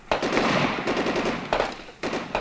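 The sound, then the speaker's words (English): Gunfire from a police gun battle at a Los Angeles house, filmed for television: loud, dense bursts of rapid shots rattle almost continuously, with a few sharper cracks standing out. “A furious gun battle raged for an hour as cameras recorded the action.”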